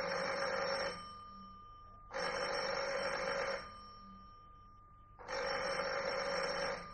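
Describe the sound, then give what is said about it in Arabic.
A telephone rings in three long electronic bursts separated by short pauses, each burst bright and buzzing with a steady pitch, heard alone with no voices. “اطلبها في التليفون”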